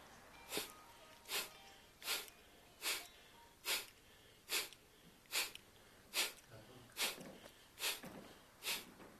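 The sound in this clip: Kapalbhati yoga breathing: a dozen sharp, forceful exhalations through the nose, evenly spaced, each a brief hissing puff with quiet pauses between them.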